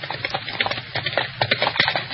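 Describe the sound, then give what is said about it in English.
Clip-clop of hooves as two horses approach through spring countryside: a steady run of many hollow knocks over a hissy background. “Martha Washington stood watching the approach of two horses”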